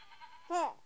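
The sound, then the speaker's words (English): A single goat bleat on a mountain, a short nasal, wavering cry lasting well under a second, rising out of quiet background hiss. “they'll climb high up a mountain to get goats. And there are the goats.”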